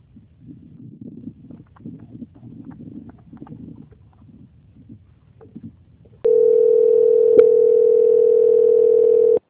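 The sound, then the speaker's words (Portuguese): A steady, unbroken telephone line tone plays while a call to a bank is on hold for transfer to quality control. It follows several seconds of low murmur, then sounds loud and constant until the end. “que vou transferir o contato para o controle de qualidade do Banco Santander para continuidade dessa contratação, ok? Ok. Aguarde em linha, por favor, não desliga não.”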